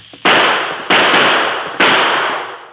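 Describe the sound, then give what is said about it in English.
Three sharp gunshots are fired at a man on a canyon rim, evenly spaced and loud. Each crack ends in a long, slowly decaying ringing tail before the next shot, with no voices. “Due to the distance, the Lone Ranger's shots missed the Indian at the top of the canyon, but they served to drive him back out of view.”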